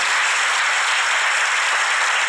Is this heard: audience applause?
yes